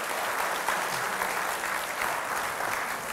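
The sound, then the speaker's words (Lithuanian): Audience applause welcoming a guest onto a talk show stage, a dense, even patter of many clapping hands that stays loud and steady throughout with no voices over it. “Taip, pasitikime plojimais.”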